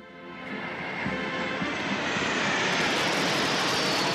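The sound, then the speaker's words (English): Roar of Irish Air Corps military aircraft flying past at Shannon Airport in 1979 during a papal departure. A broad engine rush swells over the first second, then holds loud and steady with no voices. “The Air Corps fly past as Pope John Paul II”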